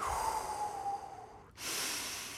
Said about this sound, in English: I breathe in stillness and I breathe out anxiety.